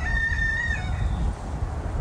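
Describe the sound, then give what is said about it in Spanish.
A rooster crows once in a garden where a few sheep are also present. The single strained, fairly high call lasts under a second over a steady low outdoor rumble. “En su jardín, un gallo y unas cuantas ovejas se acercan a nuestro paso”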